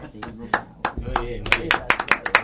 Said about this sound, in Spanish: Tenemos la gente aplaudiendo afuera. Se escuchan hoy afuera los aplausos. Sí, se escuchan de afuera.